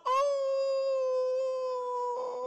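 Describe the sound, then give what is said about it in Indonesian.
A dog howls in one long, loud, sustained note at a nearly steady pitch, heard around the call to prayer, with a slight roughening of the tone just before it ends. “Tadi waktu suara azan berkumandang, terdengar suara anjing melolong.”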